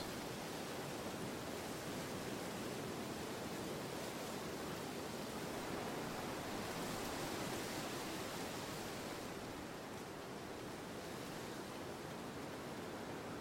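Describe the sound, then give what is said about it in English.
Enormous waves pounding a sandy beach: a dense, unbroken roar of surf that holds steady throughout, with no separate crashes standing out. “Up ahead, the sandy beach is pummeled by enormous crashing waves.”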